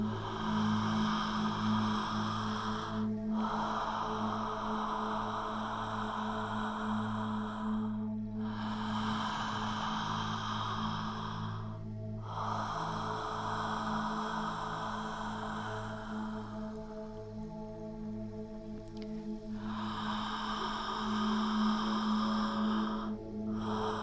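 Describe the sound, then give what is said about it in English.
Connected breathing, with no pause between inhale and exhale, flows as long, airy breaths that roll continuously from one into the next for several cycles over a steady low hum. “Connected breath, so no pause between inhale and exhale, or exhale and inhale.”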